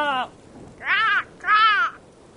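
A crow caws three times, harsh and nasal. The first caw is cut short at the start and the next two are longer, separated by short pauses.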